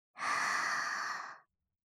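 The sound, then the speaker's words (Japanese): A single soft, long breath, likely an exhale, during a guided relaxation exercise. It rises smoothly, holds for about a second and fades, with no voice over it. “もう一回。吸って、吐いて。吸って、”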